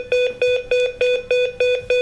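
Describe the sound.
SOS alarm from a Maxcom KXT 481 pendant emergency button: rapid, loud electronic beeps at a steady mid-high pitch, repeating in an even pattern with no pauses.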